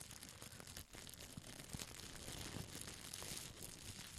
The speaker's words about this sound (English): Okay, so some unboxing for me is I've got some Pokemon cards here. So I'm just going to go through them.